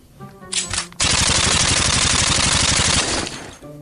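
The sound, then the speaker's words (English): Rapid machine gun fire rattles in a dense, loud stream of many shots across a trench battle, preceded by a shorter burst of rumbling gunfire. “We hear artillery and machine gun fire.”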